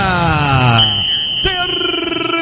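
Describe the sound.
A referee's shrill, steady whistle blast at a football match, heard after a commentator's excited voice, with crowd noise continuing underneath.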